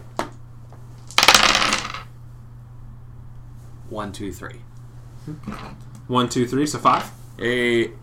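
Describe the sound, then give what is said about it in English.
Dice rolling on a table during a tabletop game, with six-sided and eight-sided dice: a short burst of rattling clatter, then people talking. “you roll 3d6s, and you roll a d3 and a d8, and add them together.”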